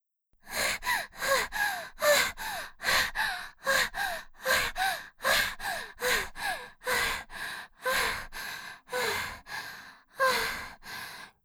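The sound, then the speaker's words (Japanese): Heavy panting from a person out of breath after running away: many loud, rapid breaths in a steady rhythm, each inhale and exhale clearly audible, with no talk. “ここまで来ればもう大丈夫かな。ちょっと息落ち着くまで待って。”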